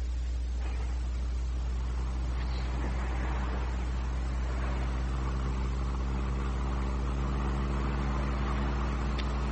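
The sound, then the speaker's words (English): Steady car engine drone for a radio drama drive to a house outside Mexico City across flat, barren land; a continuous low hum with faint road noise runs unbroken throughout, with no voices. “Well, the next morning, I met Cortez in front of the hotel, and we drove to Segura's home.”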